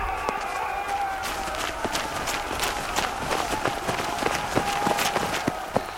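Horses galloping in a chase as riders flee attackers closing in from all sides, hooves pounding in many quick, irregular beats that keep up a steady, loud rhythm through the whole stretch.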